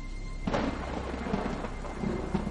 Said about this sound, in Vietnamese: Gió bắt đầu thổi, mang theo vài hạt mưa đêm. Một hạt, hai hạt, rồi ngay tức thì sau, mưa ào ào lên dữ dội.